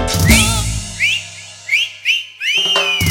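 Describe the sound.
Several short, bright whistles, each sliding upward in pitch, are whistled along to cumbia music, with a low musical backing beneath them.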